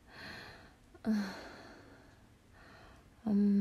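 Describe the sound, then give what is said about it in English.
Heavy, labored breathing from a person, long breathy exhales broken by a couple of short voiced gasps, loud and alone. “I don't want to keep you here listening to me breathe all hard.”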